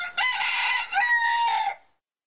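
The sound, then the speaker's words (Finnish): A rooster crows once, a single loud cock-a-doodle-doo lasting about one and a half seconds with a short dip midway, heard alone and ending abruptly into silence. “Ja siinä samassa kukko laulaa.”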